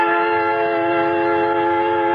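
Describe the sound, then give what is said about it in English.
Creaking train pulling out of a station and lumbering through the yards: a steady, sustained tonal drone rich in stacked harmonics holds evenly for the whole stretch, loud and unbroken, with a low rumble beneath and no talking. “At the West Station, I board a creaking train and wait and wait until finally it lumbers out through the yards.”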